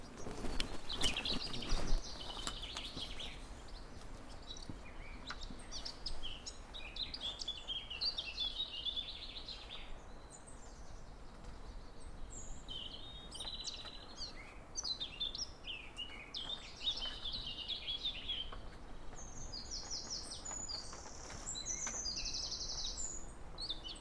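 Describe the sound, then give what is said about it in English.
Chiffchaffs singing: repeated bursts of high, bright chirping notes recur throughout, fairly faint over a soft background, with no talk. “The chiff-chaffs are back with me.”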